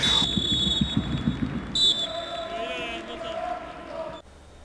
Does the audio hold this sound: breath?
no